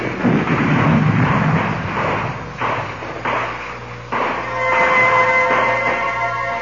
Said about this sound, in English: And explosions. Yeah, big explosions.